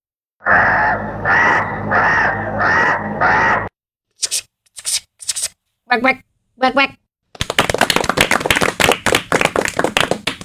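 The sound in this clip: A crow caws in several short, harsh calls separated by brief silences, with other loud, dense sounds before and after.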